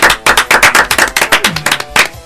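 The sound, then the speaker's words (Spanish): Applause sound effect greeting a winner's announcement: dense, rapid clapping in a steady rhythm with many sharp bursts, fairly loud throughout and alone without talk. “¡Aplausos de Decilium!”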